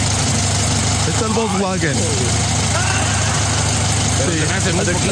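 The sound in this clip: A small engine on a motorized bicycle idles with a steady, rough low hum and buzzing vibration, while a person talks over it throughout.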